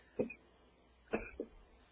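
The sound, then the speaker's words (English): A person coughing: a few short, muffled coughs spaced apart, fairly faint against a quiet background. “try to hold the coughing. It's kind of distracting.”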